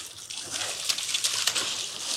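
A salmon smacks a dip net held in chest-high water on the Kenai River, setting off a continuous bright splashing and rushing of water with a few sharper slaps.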